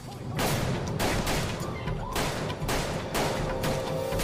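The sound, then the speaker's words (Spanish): Gunfire erupts as four men open fire on a mobster and a waitress in South Philadelphia: a loud, rapid barrage of many sharp overlapping shots, sustained as a crackling volley throughout with no talk. “Cuatro hombres se detienen y abren fuego contra Changlini y la camarera”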